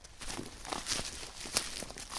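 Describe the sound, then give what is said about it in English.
Footsteps crushing crispy frozen leaves on a snowy farm in Oxfordshire: a quiet, steady series of dry crunches and crinkles, one per step. “That's the sound of crispy frozen leaves being crushed beneath my feet.”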